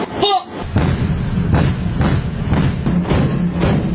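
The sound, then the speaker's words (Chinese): Heavy booms from the main gun of the Chinese warship Pingdingshan firing nonstop at an aerial target: a loud, steady series of deep thudding blasts, each following closely on the last. “经过连续不间断射击，主炮成功摧毁空中目标。”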